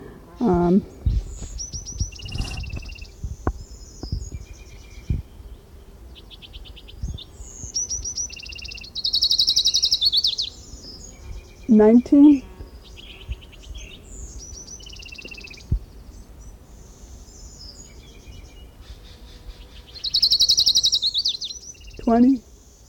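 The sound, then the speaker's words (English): Two high, buzzy trills of orange-crowned warbler song stand out, each about a second long and well apart, among scattered softer chirps and calls. “This is Orange Crown Warbler number 6 continued.”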